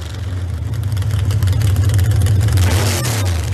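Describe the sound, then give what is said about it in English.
An engine fitted with an oversized cam revs with a loud, deep, steady rumble that holds continuously throughout, with no talk. “But you know, if you really want to beef that thing up, you got to put an oversized cam in it. So when you oversize the cam, then you get a sound something like this.”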